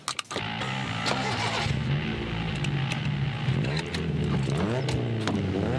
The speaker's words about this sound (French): J'allais mettre un effet. Ah. Tu veux un petit coup de gaz?